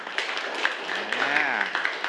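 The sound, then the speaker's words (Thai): A Thai classroom applauds a classmate who answered a teacher's question correctly. Scattered clapping mixes with students' voices talking and calling out over it, at a moderate, uneven level. “ปรบมือให้กับเพื่อนหน่อย”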